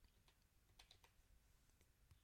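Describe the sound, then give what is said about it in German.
Cursor keys pressed on a computer keyboard, giving faint, soft clicks at an irregular pace over a low, steady hiss. “ich drücke mal eben so ein bisschen die Cursorsteuerung, damit ihr sehen könnt.”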